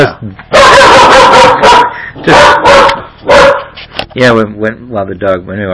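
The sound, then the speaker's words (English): A dog barks in several loud, sharp bursts while people talk over and between them. “when the dog was barking”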